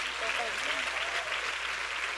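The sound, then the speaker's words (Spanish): Church audience applause, dense and steady throughout with no clear breaks, with a faint voice underneath. “Si ese es el aplauso, dáselo mejor a tu padre.”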